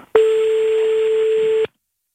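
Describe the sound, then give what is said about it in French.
A single steady telephone tone sounds as a call is placed. The clear, mid-pitched tone holds evenly for about one and a half seconds, then cuts off abruptly to silence. “Appelle tout de suite.”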